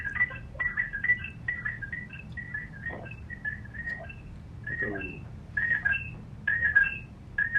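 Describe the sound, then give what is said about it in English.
Faint electronic keypad tones as someone dials into a conference call: many short, high beeps in irregular runs over a low, steady background hum. “I think somebody's dialing in twice.”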